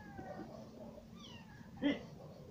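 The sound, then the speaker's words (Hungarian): A cat meowing, with faint, brief meows rising over a low steady background hum. “Mi kis macska jött még itt? Nem tudom. Valami nyávok”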